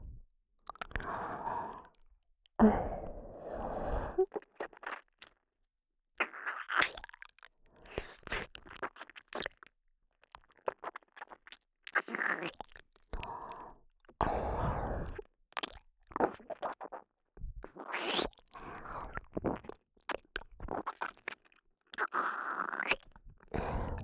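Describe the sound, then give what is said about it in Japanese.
Mock eating of an ear, with many short, wet chewing and crunching mouth sounds in an irregular rhythm, fairly quiet, with brief pauses between bursts and no talk. “お耳は、どんな味がするのかな。いただきます。”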